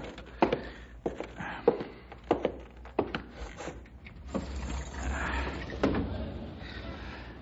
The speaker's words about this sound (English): Wonder why I didn't open the window.